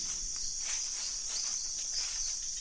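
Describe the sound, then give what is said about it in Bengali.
Crickets chirp at night near a bamboo grove, a steady high-pitched trill that holds without a break through the whole stretch, with faint wavering pulses and no voices. “হঠাৎ তার খেয়াল হল যে আবার ঝিঁঝি ডাকতে শুরু করেছে।”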